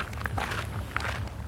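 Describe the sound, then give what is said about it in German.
Footsteps climb the roughly 150 stairs of the Müggelturm tower, with a few quiet, quick footfalls over a low rumble. “Wir gehen jetzt ungefähr 150 Stufen den Müggelturm hoch.”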